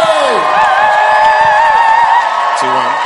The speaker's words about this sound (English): stand to your feet, make some Holy Ghost noise as we welcome to the pulpit, Bishop Richard Ayo.